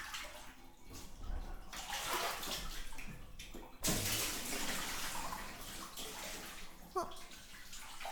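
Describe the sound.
Water rinses in a bath, a steady rushing pour with gurgling splashes and a couple of sudden louder surges as the flow strikes.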